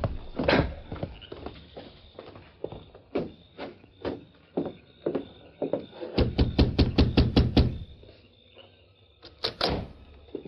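Horse hooves clopping to a halt at a prison warden's home late at night: a steady run of many hoofbeats, thickening into a dense rapid burst before a pause and a few final thuds, with no voices.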